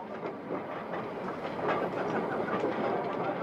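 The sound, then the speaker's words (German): An armoured face conveyor starts up along the coalface in an underground coal mine, a dense, continuous clattering rumble with rhythmic metallic rattling that swells slightly partway through. “Und dann läuft der Panzerförderer an. Und der Walzenschremmlader taucht auf. Fährt durch den Streb.”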